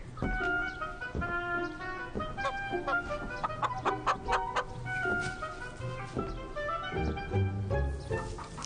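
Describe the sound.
Chicken clucking, from a bird about to be injected with a lethal sample: a steady run of many short, repeated clucks that continues throughout against a constant background.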